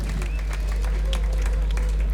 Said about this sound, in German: herzlichen Applaus für das. Sehr schön. Sehr schön.